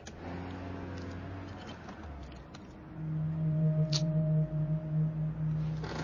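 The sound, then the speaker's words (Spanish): A car engine starts up and runs as a car leaves a parking lot: a steady, low, droning hum swells partway through and holds at an even pitch, without voices. “Marisol monta en su coche.”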